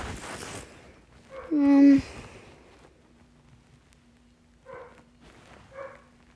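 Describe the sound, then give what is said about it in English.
Dog barking: one drawn-out tonal yelp, then two short, faint barks later on, all over a low, steady hum. “Oh, you're probably hearing my dog barking. Listen. If you don't, you're really lucky.”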